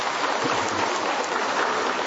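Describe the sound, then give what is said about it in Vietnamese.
Steady applause from a gathering clapping for a small child, a dense, even patter of many hands that holds at the same level throughout with no voices. “Rồi, cho nó một tràng pháo tay.”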